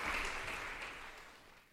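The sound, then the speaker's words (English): Applause for seven musicians at a piano honors recital in a chapel: a soft, even wash of clapping that gradually fades away. “And lots of applause for all seven musicians on stage.”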